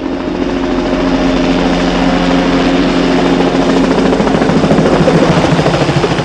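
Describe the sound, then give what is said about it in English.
A helicopter flies above a road, its rotor and engine making a loud, steady drone that holds an even level throughout with no voices. “The helicopter flies above the road.”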